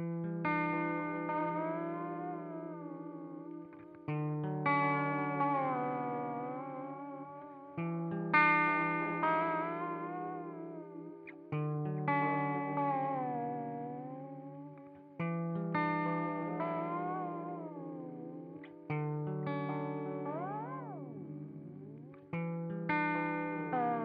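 Guitar played through a videotape echo effects pedal with a garbled, warbling tape-like tone. Several sustained phrases each swell and fade in turn, their pitch wobbling, and the last one bends sharply downward.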